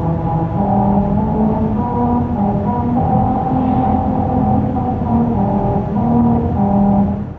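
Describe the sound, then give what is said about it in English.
A car drives over musical grooves cut into the pavement, its tires sounding a run of droning, off-key notes that hold a wavering melody over a continuous rumble of road and engine noise. “special grooves were cut into the pavement that cause these notes to ring out as you drive over them.”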